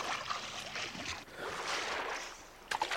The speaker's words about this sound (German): Dann zog er sich bis auf die Badehose aus, glitt ins Wasser und schwamm zum Ufer hinüber